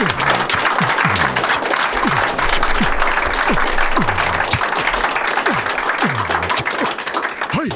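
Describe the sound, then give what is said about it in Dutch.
Audience applause for a performer, with lively, continuous clapping from many people at a loud, even level throughout. “En mag ik een applaus voor Brahma Menon.”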